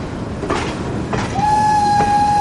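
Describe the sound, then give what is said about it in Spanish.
Train crossing a bridge at night, a rolling rattle with a few heavy rhythmic clacks, joined midway by a steady high-pitched tone that sustains to the end as the overall noise grows louder. “De noche el tren cruza un puente.”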